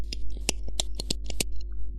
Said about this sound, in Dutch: Nee, het is een niet-machientje waarmee geknipt wordt.